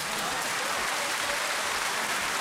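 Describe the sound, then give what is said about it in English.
A round of applause, a dense and even wash of many hands clapping together that stays loud and unchanging throughout, like steady rain. “Okay, round of applause.”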